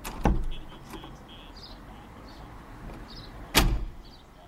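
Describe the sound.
A door is opened, marked by two sharp clunks several seconds apart over a quiet, steady background hum.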